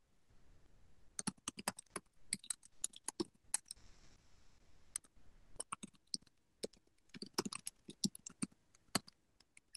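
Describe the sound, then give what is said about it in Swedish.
Someone writes on a computer keyboard, typing in rapid, irregular bursts of many crisp key clicks broken by short pauses. “Varsågod och, varsågod och börja skriva.”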